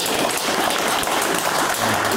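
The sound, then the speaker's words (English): Polite applause from a small group, a moderate, steady patter of clapping that holds at an even level for about two seconds with no voices over it. “A polite clap.”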